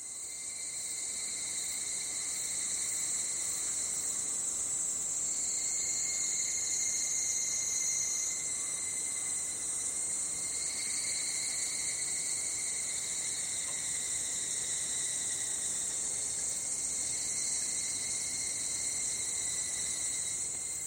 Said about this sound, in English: This is a recording of an evening chorus, actually, of insects. A very common sound in Japan.